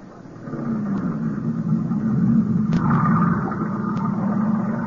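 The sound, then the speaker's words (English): A boat engine starts up, swelling briefly at the beginning and then settling into a steady, low, rumbling drone that holds to the end. “Get into the boat. Okay. You're steering. Go ahead, start it up.”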